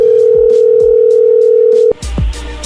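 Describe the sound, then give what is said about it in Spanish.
Telephone tone on an outgoing call that goes unanswered, a steady single-pitch tone held for about two seconds, then abruptly cut off by a short burst of noise. “Parece que no está contestando Kevin. Bueno, vamos a marcarle otra vez.”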